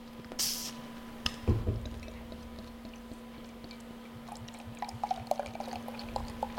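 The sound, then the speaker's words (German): Beer, a light golden brew at 4.8% alcohol, pours from a large bottle into a glass. The pour is faint, with a brief knock near the start, then soft trickling and fine crackling fizz. “Ist eine große Flasche, kann ich ein bisschen mehr reinmachen, ne?”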